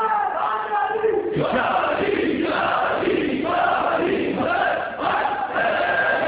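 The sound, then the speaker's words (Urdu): A large crowd of mourners of Imam Hussain chants religious slogans in loud unison, the voices rising and falling in steady waves without a break. “یہ نعرے آپ کے دشمن کا دل ہلا دینے کے لیے کافی. اس طرح جو پلٹتے ہیں نا قدم, ان قدموں کو روک لیتا ہے یہ نعرہ.”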